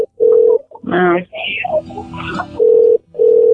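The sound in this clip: Telephone ringback tone on an outgoing call: three steady, mid-pitched tone bursts, one at the start and two at the end, with people talking in between.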